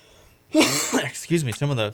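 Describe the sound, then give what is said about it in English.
Coughing after inhaling foam shaved off a microphone: a few rough, voiced coughs and throat-clearing bursts after a quiet start, loud and close together. “This foam on the microphone, it shaves off, and I think I just inhaled some of it.”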